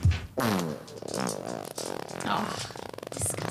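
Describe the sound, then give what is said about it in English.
A voice imitates a loud, drawn-out fart during a tabletop roleplaying game, a buzzy, fluttering sound running steadily for several seconds with no break. “Well, a big fart is occurring. A big stinky.”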